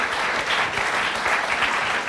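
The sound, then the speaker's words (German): Audience applause rewarding a young quiz contestant for a correct answer, a dense, steady patter of many hands clapping at once, holding an even loudness throughout with no voices over it. “Ja, Mathis hat Applaus verdient.”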